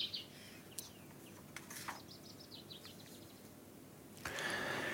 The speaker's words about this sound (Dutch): Daar horen we de vinkenslag.